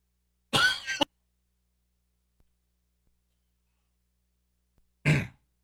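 Throat clearing and coughing from a scratchy throat: two short, rough bursts, one near the start and one near the end, separated by a long stretch of silence, with no talking.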